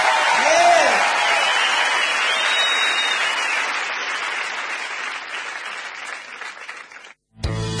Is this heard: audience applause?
yes